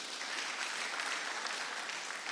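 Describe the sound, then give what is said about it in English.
An audience clapping at a sermon: dense, steady applause that holds at an even, fairly soft level throughout, with no voices rising above it. “Thank you for that amen over there. Clap your hands for her.”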